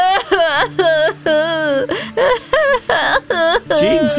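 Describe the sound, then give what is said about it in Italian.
A woman cries and wails in a long run of quavering, drawn-out voiced sobs separated by short breaks. The sobs are loud and rise and fall in pitch over a steady low tone. “che succede? Perché piangi?”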